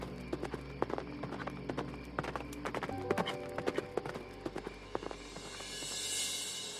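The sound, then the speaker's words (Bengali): Horse hooves clip-clop in a steady, even rhythm, with many crisp strikes over a low background hum. “নেতাজির ঘোড়ার খুঁড়ের শব্দ শুনলাম”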